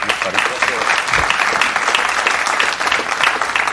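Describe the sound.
A church audience claps to welcome a guest pastor at a morning service, a dense, steady burst of applause that holds evenly for several seconds.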